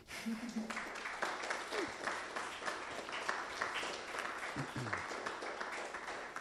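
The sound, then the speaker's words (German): Applause from an audience after a talk on anarchist pedagogy: dense, steady clapping that continues for the whole stretch, with faint voices occasionally underneath. “Und ja, vielleicht erstmal den Applaus.”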